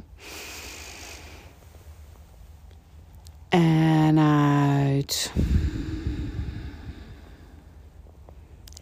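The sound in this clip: Breathing in and out during a guided exercise with the arms raised on the inhale: a quiet airy intake, a tonal hum, then a louder, rushing exhale.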